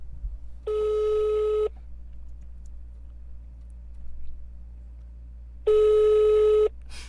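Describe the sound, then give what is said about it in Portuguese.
A telephone call being placed: two steady ringback tones, each lasting about a second and separated by a few seconds of quiet, over a faint hum. “Não dormiu, vou ligar pra mulher dele. A gente tá ligando pra mulher dele agora.”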